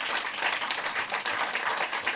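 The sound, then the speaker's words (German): Audience applause for a film director appearing on stage, a soft but continuous crackle of many hands clapping that stays even throughout. “Bitte nochmal großen Applaus, Ed Herzog, der Regisseur, bei uns auf der Bühne.”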